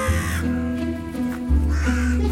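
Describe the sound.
A crow cawing: a few loud, harsh, raspy caws in close succession, grating and nasal in tone, with no clear talk.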